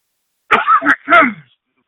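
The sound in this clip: A man clears his throat and coughs in three rough, loud bursts in quick succession, heard alone against silence.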